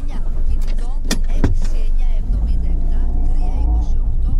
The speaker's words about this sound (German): Wir fahren aus dem Dorf heraus.